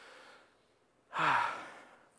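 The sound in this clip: Deep breath drawn in: one audible inhale that swells after a quiet stretch and then slowly fades, heard on its own without talk.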